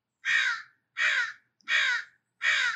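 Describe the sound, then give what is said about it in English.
A crow calls with four loud, harsh caws, evenly spaced with short silences between them and no other sound. “Did you hear that bird chirping in the background? Oh my gosh, right on cue.”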